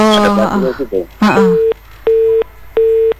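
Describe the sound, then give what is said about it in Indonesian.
Disconnect tone of a telephone line cut off mid-call: three steady, evenly spaced beeps at a single mid pitch, the first starting just as a voice stops talking. “Lagi ceritaan asik-asiknya cerita malah terputus nih teleponnya.”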